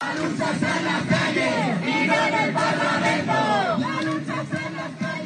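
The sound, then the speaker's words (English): Thousands of protesters marching through the streets of Madrid, calling for a general strike over housing measures. Many voices chant and shout together in a loud, continuous crowd roar. “That's the sound of thousands of protesters walking through the streets of Madrid today, calling for a general strike after the Spanish government voted down new housing measures”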